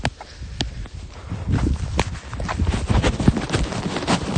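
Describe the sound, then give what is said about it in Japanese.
Footsteps of a light jog, many quick, soft thuds in an even rhythm that grows slightly louder. “今日はちょっと軽いジョギングなんでそうあくまで運動解消のためにですね”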